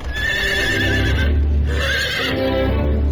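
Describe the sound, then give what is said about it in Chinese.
A horse whinnies loudly in drawn-out, wavering calls over the steady rumble of a horse-drawn carriage trotting along a street in a French Concession district. “马车在离开北站之后，一路小跑，跑入法租界霞飞路。”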